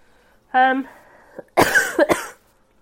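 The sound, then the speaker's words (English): Harsh coughing from a tickle in the throat: a few rough, breathy bursts in a quick cluster, loud and alone with no talk. “Sorry guys, I have a little bit of a tickle in my throat on and off for the last few days, but it's fine.”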